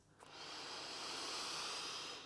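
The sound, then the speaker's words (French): A long exhale follows a held breath during a guided relaxation breathing exercise. It is a soft, steady, airy hiss lasting about two seconds that swells slightly and fades at the end. “retenez l'air, tension du corps, tenir l'air, tenir, et puis soufflez”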